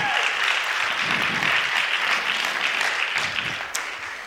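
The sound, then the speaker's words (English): Audience applause for a performer on stage, a dense, continuous wash of clapping that stays steady and tapers slightly toward the end. “Give Mark a big round of applause.”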